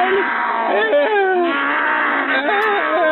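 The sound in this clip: A person in a lion costume imitates a lion's roar with a long, wavering, moaning voice that stays loud throughout.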